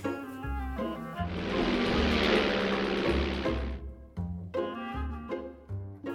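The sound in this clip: A broad, jet-like roar of an airplane taking off swells loudly for about two and a half seconds, then fades, over steady tonal sounds that carry on before and after it.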